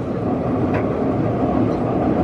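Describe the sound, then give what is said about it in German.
An old Moscow metro train runs along the line, producing a dense, continuous rumble that stays loud and steady throughout. “und wieder fahren wir mit einer alten Metro.”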